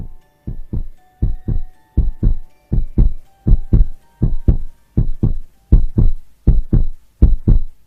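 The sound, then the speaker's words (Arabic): Heartbeat sound effect in a horror story: loud, deep, regular lub-dub thumps in a steady series of about a dozen double beats, with no voices. “اللي حصل إن أنا بدأت دقات قلبي تعلى،”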